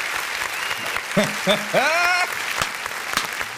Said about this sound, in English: Definitely give him a round of applause.